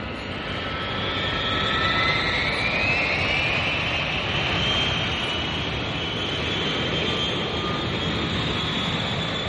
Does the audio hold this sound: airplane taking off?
yes